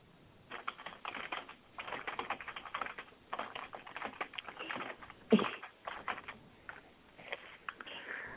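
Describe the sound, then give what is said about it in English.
Fingers tapping on a computer keyboard as a radio host types during her show: quick, irregular, faint clicks that run on throughout, with no talking. “I love how she types when she's on, like, when she's on a radio show hosting the show. She always does that. You can hear little fingers typing away.”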